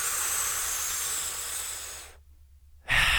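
Deep breathing in during a guided heart meditation: a long, soft, steady hiss of about two seconds, then a brief silence before a louder breath starts.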